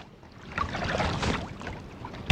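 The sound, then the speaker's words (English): Water swishes and splashes as a canoe paddle strokes through New Brunswick's Miramichi River, a soft rushing swell that builds and fades over a couple of seconds. “a canoeist paddling down New Brunswick's Miramichi River.”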